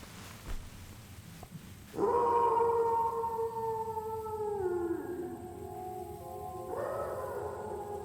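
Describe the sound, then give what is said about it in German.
A dog howls in the cold, fairly faint: one long, wavering howl that slides downward in pitch, then a second howl starts after a short pause, with no talk over it. “Wolf, auch das noch, oder? Nein, ein Hund.”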